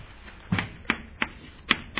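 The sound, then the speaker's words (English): Writing on a board produces five short, sharp taps at uneven intervals over a faint background, with no talk. “Let me just draw these out on the board.”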